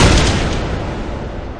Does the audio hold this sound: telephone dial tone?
no